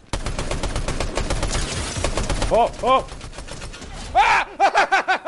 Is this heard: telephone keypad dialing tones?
no